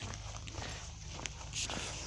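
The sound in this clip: Footsteps walk along a country road, a steady run of soft, even treads that keeps going throughout without talk.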